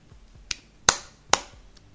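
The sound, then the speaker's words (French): Claps made by someone holding a Nintendo 3DS stylus: three sharp, dry strikes spaced at short intervals. The first is softer, the last two are louder and crisp, with quiet between them. “Désolé, à applaudir avec un stylet de Nintendo 3DS dans les mains, c'est très difficile.”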